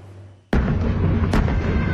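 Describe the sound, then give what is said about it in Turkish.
Artillery fire from tanks and howitzers at a military live-fire demonstration in Polatlı, Ankara: a sudden, heavy boom breaks a quiet rumble, then a second sharp blast follows about a second later, with loud rolling reverberation sustained throughout. “Tanklar, obüsler, atak helikopterleri, savaş uçakları, insansız hava araçları, kamikaze dronlar, komandolar. Türk Silahlı Kuvvetleri ateş gücünü Ateş Serbest 2026 tatbikatıyla gösterdi.”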